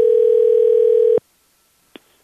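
A steady telephone dial tone holds for just over a second and then cuts off abruptly, heard before the phone is used to call again. A single faint click follows after a short silence.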